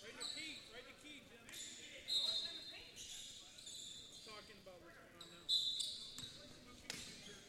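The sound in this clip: Basketball dribbled on the court during a boys' high school game, repeated rubbery bounces under a man's running play-by-play commentary, with a few louder hits standing out.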